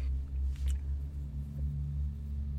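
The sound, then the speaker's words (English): A truck passing by as a deep, low rumble that swells and eases a few times over a steady engine drone, with no talk over it. “And another truck. Oh, man.”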